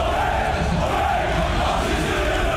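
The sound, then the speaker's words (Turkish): Stadium crowd of club members chanting slogans in support of Aziz Yıldırım, a dense, continuous roar of many voices that stays at an even, loud level throughout. “Ve Hakan Safi stada geldi. Üyeleri selamladığı sırada Aziz Yıldırım sloganları yükseldi.”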